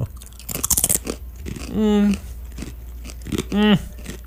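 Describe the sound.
Crunchy bites into thin flat pretzel crackers, only a millimetre or two thick, with a cluster of crisp cracking snaps near the start, followed later by two short voiced hums.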